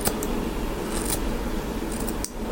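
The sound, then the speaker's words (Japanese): Scissor blades cut at a diagonal angle, giving several crisp, quick snips over a steady hissy rustle, with no voices. “斜めに刃を入れる。なるべく上げない。”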